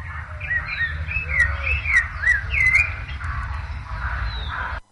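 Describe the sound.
Thrush singing a run of clear whistled phrases and chirps, some sliding up and down, over a steady low background rumble.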